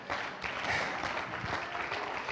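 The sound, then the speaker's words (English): A church audience claps during a lively worship service. Many hands beat out fairly quiet, dense, continuous clapping, with occasional sharper claps standing out from the steady patter. “Come on, somebody, clap your hands to the Lord.”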